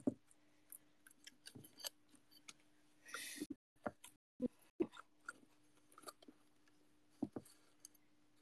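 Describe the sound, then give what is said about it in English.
Scissors trimming off part of a plant: faint, sharp snips and clicks scattered irregularly, with a small cluster of busier rustling cuts in the middle. “Okay, I'm gonna cut it off. Sorry, plant, but you'll grow it back, I swear.”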